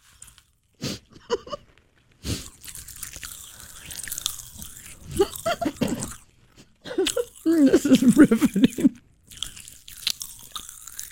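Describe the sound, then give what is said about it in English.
Pop Rocks candy crackles and crunches in a mouth, giving bursts of crisp pops and chewing noises. Brief talk comes between the bursts. “There we go. Pop rocks on the radio.”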